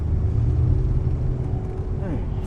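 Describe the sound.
Steady low engine and road rumble inside a moving gray Volvo station wagon, a continuous even drone that holds at the same loudness throughout.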